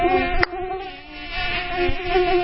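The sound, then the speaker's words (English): Mosquito buzzing inside a studio: a steady, thin, high-pitched whine that drones on without a break for the whole clip, fairly loud and with no talk over it. “Gotta get in the hollow to get these mosquitoes. Yeah, I am not a mosquito fan”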